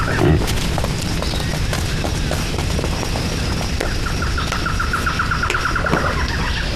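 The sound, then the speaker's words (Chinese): A wild boar squeals in a rapid run of sharp, high cries, set against constant broad rustling noise and scattered thumps. “有野猪！ 快，赶紧马上抓住！”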